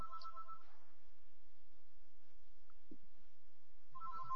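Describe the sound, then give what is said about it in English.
A telephone rings with an incoming sales call: two faint bursts of electronic ringtone, one at the start and one at the end, separated by near silence. “Sorry for the phone call. This looks like a sales call.”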